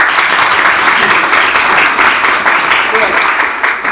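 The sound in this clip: Audience applause breaks out after a speaker's remark: a dense, even patter of many hands clapping that holds steady and tapers slightly at the end.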